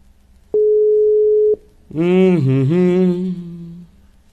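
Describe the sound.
An outgoing phone call to a radio station produces a single steady, mid-pitched ringing tone lasting about a second. After a short pause comes a longer, richer tone with many harmonics that wavers slightly in pitch before stopping.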